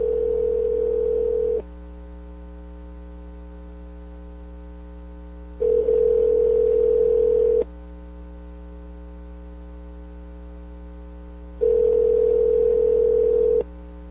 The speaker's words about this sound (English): Here we go. I'm dialing it, and it's area code.